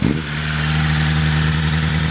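Four-cylinder car engine of about 215 horsepower revved in neutral, giving a loud, steady, throaty drone with a strong low hum that holds unbroken for about two seconds.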